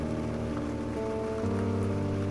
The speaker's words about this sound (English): and you're just standing here in the rain, in the dark,